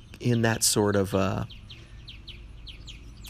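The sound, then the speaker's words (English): Birds chirp with a few quick, high, faint twitters that follow a short voiced burst at the start. “the birds want to be on this podcast”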